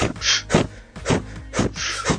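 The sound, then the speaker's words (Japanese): Sharp, forceful breaths pushed out through the mouth as the belly is pulled in during a breathing exercise, forming a quick, fairly regular series of short, hissy bursts with brief gaps between them and no talking. “勢いよくへこませながら息を吐く感じです。”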